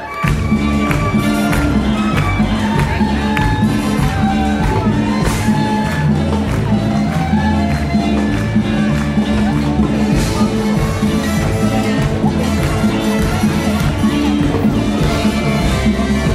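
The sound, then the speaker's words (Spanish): Loud, continuous live music and crowd noise fill an evening park concert where about 2000 people are dancing. The dense sound stays at a steady level throughout. “Acá más o menos debe haber, no sé, 2000 personas aproximadamente bailando”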